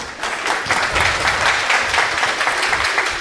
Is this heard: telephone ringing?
no